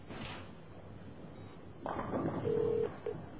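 A telephone is dialed after pager beeps, heard faintly as a held electronic tone followed by a shorter second beep, with a thump just before.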